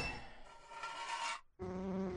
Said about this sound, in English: Take that, you crazy bee!